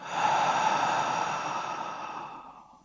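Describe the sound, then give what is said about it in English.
A deep breath in through the nose and out through the mouth sounds as one long, airy breath that stays steady and then gradually fades out, heard alone. “Take a deep breath in through your nose and out through your mouth.”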